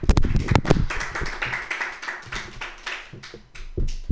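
Applause for a comedian at a comedy open mic: a loud, dense patter of many hands clapping, strongest at the start and then settling into a steady, slightly uneven wash.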